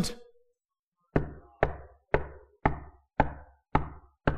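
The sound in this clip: Seven evenly spaced knocks on a door, each a firm, resonant rap with a short decay. They come after a brief fading sound and a pause of silence.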